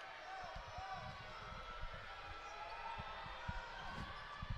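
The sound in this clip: A basketball is dribbled repeatedly before a free throw in a Princeton at Oregon State men's college basketball game, giving many dull, evenly spaced thumps over a low, steady background.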